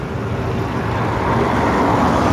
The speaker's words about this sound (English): Cars lined up in the road waiting to get into the parking garage driveway.